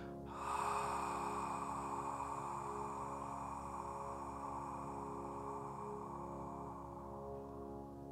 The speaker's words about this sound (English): if you imagine that your throat is a valve and you just shut it down a little bit, you constrict it a little bit more, make it a really thin stream of breath coming out through your mouth.